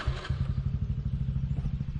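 A motorbike engine runs steadily as the rider heads into a palmyra palm orchard, giving a low, even throbbing pulse with faint clatter on top and no voices.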